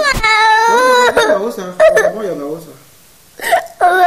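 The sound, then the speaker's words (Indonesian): A young child crying in high, wavering whimpers and wails, broken by short hiccup-like catches and brief pauses, loud and close. “Udah nggak nangis ya.”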